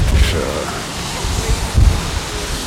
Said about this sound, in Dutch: Tamelijk winderig en koudachtig.